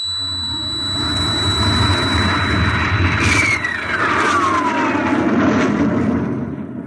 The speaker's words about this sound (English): countdown for blastoff. X minus 5, minus 4, minus 3, minus 2, X minus 1, fire.